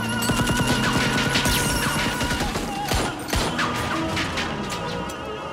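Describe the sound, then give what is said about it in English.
Guards open fire during a prison escape: many sharp gunshot cracks and crashing impacts burst out over a loud, dense, chaotic din, with a couple of especially heavy blasts near the middle. “the guards come out and start opening fire on them.”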